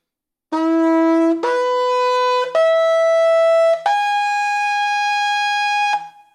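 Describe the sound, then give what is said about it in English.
A ram's horn shofar blows four sustained, bright, brassy notes. Each note steps higher than the last to arpeggiate a major chord. Brief breaks separate the notes, and the final, longest tone fades out. “Despite a given shofar's limited number of possible pitches, they always sound harmoniously, arpeggiating a major chord.”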